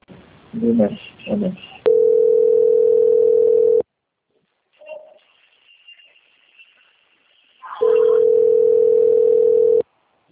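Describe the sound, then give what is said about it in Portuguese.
Telephone line tone during a bank call transfer: brief speech at the start, then two long, steady, unbroken tones of about two seconds each, separated by a quiet gap with faint line noise. “Pode aguardar em linha, tá bom? Que eu vou transferir a ligação, só um momento.”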